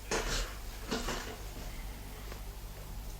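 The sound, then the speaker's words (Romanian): Clunks of a house door being locked as people leave, a few short knocking clicks spaced apart, fairly quiet and without talk. “E atunci să încuiem ușa.”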